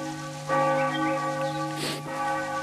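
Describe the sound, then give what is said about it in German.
Church bells ringing at noon on a mountain pasture, faint and resonant with lingering tones and a few soft strikes, heard alone without talk. “Das ist schon wieder 12, oder was ist? Hörst du die Glocken bis auf die Leiten?”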